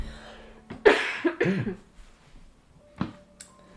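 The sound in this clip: Coughing after accidentally inhaling tea: a cluster of several harsh, rough coughs, then a pause and one further single cough, with no talk over it.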